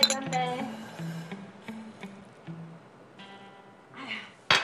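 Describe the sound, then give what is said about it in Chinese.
Glasses clink in a toast, with a bright, sharp clink near the end. Before it, several voices call out and cheer. “来来来，为了咱们的新世纪，干一杯！ 干一杯！”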